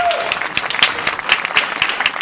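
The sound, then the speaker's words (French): Guests in a radio studio get a round of applause. Brisk, evenly spaced claps come from what sounds like a small group, sharp and fairly loud, with a short tone at the start. “Voilà, on peut les applaudir hein, évidemment.”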